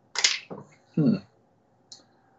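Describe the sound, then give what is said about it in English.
A peeler scrapes a carrot in a few short, crisp strokes. Some are hissier and brighter, one is duller. The strokes are separated by quiet gaps, with no talk. “Here's a peeler, right, folks? What do you do to start using a carrot, right? Well, you peel it, right? So there's your peeling your carrot.”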